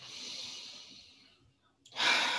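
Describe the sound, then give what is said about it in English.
Deep breathing during a yoga session: a long, airy inhale slowly fades into quiet, then a louder, sharper rush of breath starts near the end. “I want everyone to take a deep breath in”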